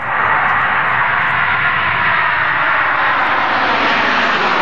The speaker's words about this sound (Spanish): Es un avión.